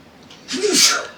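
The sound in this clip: A single human sneeze, a short breathy intake followed by a loud, hissing burst that fades quickly.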